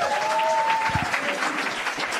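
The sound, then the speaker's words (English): Audience applause greets a brewer introduced on stage at a gathering of brewers: a dense, even clatter of many hands that holds steady for about two seconds without a break. “We've got, you can applaud, Andy.”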